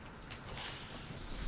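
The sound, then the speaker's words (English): A voice imitates a snake's hiss: one breathy, high-pitched hiss that swells in after half a second and holds for about a second, moderately loud over faint background noise. “Snake. Good.”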